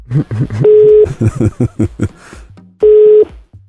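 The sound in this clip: Ringback tones on a phone line as a call is placed: two steady, low, half-second beeps separated by a pause, with a voice talking before and between them.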